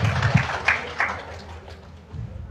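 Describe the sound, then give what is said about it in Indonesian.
Short round of audience applause for an introduced guest at a formal event, moderately loud at first and quickly thinning out to a quieter background within a couple of seconds. “Nah, aplaus buat Pak Rudi kita ini.”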